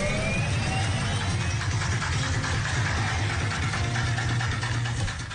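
A car engine running at idle, a steady loud low rumble with a continuous mechanical hum that holds evenly throughout and dips slightly at the very end.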